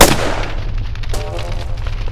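A single gunshot in a drama scene: a sharp, loud blast at the very start that trails off into a low, rumbling tail.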